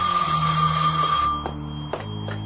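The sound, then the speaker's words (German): A telephone in a gravedigger's house on a cemetery rings steadily, then cuts off partway through, leaving a low droning background broken by a couple of soft clicks. “Ein Anruf für den Totengräber? Ich werde mal drangehen.”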